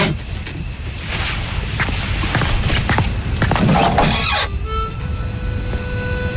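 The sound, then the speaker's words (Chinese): Harmonica played on the steps outside a dormitory building, steady sustained notes that come in during the later part after a stretch of rustling and footsteps. “谁在吹口琴？”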